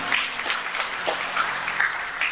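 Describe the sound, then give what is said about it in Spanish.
Audience applause at a church gathering comes as a brief burst of fairly soft clapping with scattered sharp claps across its length. “Denle un aplauso a mi hermano.”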